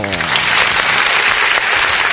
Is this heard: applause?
yes